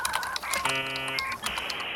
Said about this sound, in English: There's also Google. Type it in. Okay, we Google it.